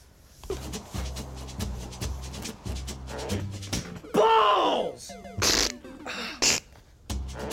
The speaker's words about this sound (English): You punch yourself a lot. You okay, man? Yeah, I just had some kind of weird muscle spasm and punched myself in the head a bunch of times.